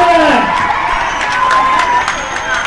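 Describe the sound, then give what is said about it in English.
Students cheering and applauding for fellow students at a school event, a loud, sustained crowd roar with excited shouts and scattered claps, with voices heard over it. “Can we give them a round of applause, the PA”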